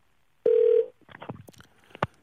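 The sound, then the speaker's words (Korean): A telephone call being placed from a radio call-in studio: a short, steady line tone sounds first, followed by choppy, garbled line sounds and a sharp click near the end. “자, 5554님 한번 전화 걸어보겠습니다.”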